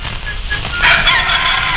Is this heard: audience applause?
no

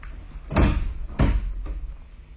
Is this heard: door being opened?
yes

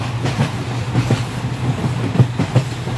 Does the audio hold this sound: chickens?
no

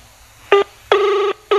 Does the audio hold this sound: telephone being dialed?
yes

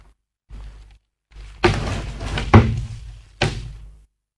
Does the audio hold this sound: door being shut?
yes

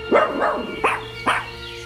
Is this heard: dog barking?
yes

